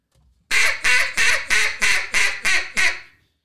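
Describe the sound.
A duck call blown as a greeting call imitates a duck with eight loud, raspy quacks in an even, steady rhythm, each note short and clipped, with no talking around them.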